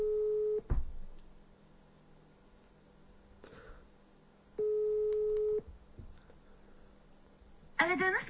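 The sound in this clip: A telephone ringback tone sounds while a call is placed: two steady, mid-pitched tones of about a second each, separated by roughly four seconds of near quiet, with a brief voice at the end.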